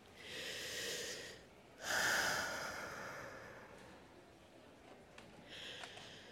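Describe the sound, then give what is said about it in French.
Deep, slow breathing: a few long, airy breaths drawn in and let out, quiet and unhurried, with a pause before the last one. “Pour ce faire, respirons.”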